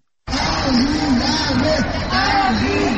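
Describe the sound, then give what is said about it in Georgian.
A crowd shouts and chants at an Armenian genocide remembrance march in Samtskhe-Javakheti, Georgia: raised voices start abruptly and carry on as a dense, wavering, sustained mass of calls. “ამ შეძახილებით, სანთლებით, პლაკატებითა და დროშებით ყოველი წლის 24 აპრილს სამცხე-ჯავახეთის სომეხი მოსახლეობა 1915 წელს იხსენებს.”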